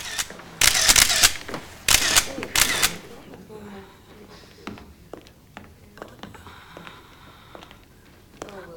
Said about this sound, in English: screws up his face at the flash from the police photographer's camera.